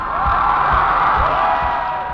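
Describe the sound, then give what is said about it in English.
A concert crowd cheering wildly: a dense, sustained roar of many voices, loud and unbroken for the whole span. “Crowd just went nuts right after that”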